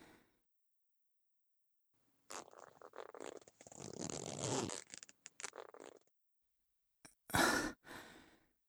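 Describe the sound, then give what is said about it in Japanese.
A zipper on the back of a dress is pulled down in a few rough, rasping strokes, followed after a pause by a short, louder burst of fabric noise. “背中のファスナーを下ろしましたよ。”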